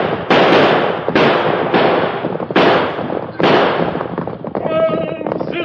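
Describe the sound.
Gunshot sound effects in an old-time radio western shootout during a horseback chase: five loud, sharp bangs, each trailing off in a hissing decay, spaced about a second apart. A quieter tonal sound follows near the end.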